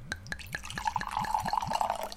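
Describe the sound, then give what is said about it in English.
Red wine poured from a bottle, a 2008 Cabernet Sauvignon and Merlot blend from Somontano, Spain: a quick, steady series of soft glugs, each rising in pitch, with a thin ringing building as the glass fills. “today I have a nice Enate bottle of wine. It's a blend. It's a 2008 Cabernet Sauvignon and Merlot from the Somontano region in Spain, and we're about to pour and talk about it.”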